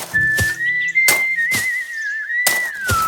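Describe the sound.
A worker whistles a sustained, mostly steady high note with a slight waver while doing a task. Five sharp, impact-like hits punctuate the whistling, which stays loud and unbroken for the whole clip.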